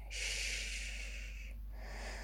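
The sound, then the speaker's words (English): Heavy breathing: a long, loud, breathy exhale that hisses for over a second, then a softer second breath, alone and without words. “Shh, calm your breathing, relax.”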